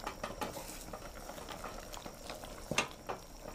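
Meat cooking in a pot is stirred, giving faint, continuous soft scraping and bubbling with one sharper knock near the end and no talk.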